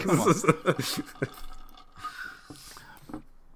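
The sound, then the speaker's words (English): Beer poured onto the floor gives a faint splashing trickle with scattered drips, and voices are heard at the start. “You got to pour a little bit of beer on the floor, man. For the homies that ain't here.”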